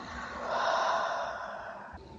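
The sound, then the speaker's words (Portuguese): A slow, conscious breath exhaled through the mouth during a relaxation breathing exercise: one long, smooth airy rush that swells gently and then eases off, with no talking. “Você respira assim, e solta com muita tranquilidade pela boca assim.”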